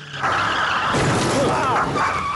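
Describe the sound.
A car brakes sharply as a pedestrian steps in front of it, with a brief wavering tire squeal over loud, continuous engine and road noise.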